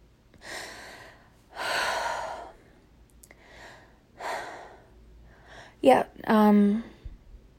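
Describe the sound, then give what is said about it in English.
Heavy breathing from someone out of breath after a walk around the block: several loud, rasping breaths with pauses between them, ending in a voiced, gasping sigh. “Why am I out of breath? I went for a walk around the block. I literally just got back.”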